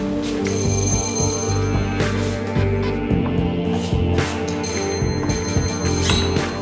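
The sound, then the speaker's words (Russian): An apartment doorbell rings loud and continuously, a bright metallic ringing with several fresh bursts layered over one another. “И звонит именно в ту квартиру.”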